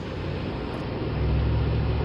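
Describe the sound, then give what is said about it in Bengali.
A jeep drives along a muddy road, giving a steady low engine rumble under broad road noise that swells slightly toward the end, with no voices. “কাদা রাস্তা দিয়ে লাফাতে লাফাতে zip ছুটে চলল ঘুরঘুটিয়ার দিকে।”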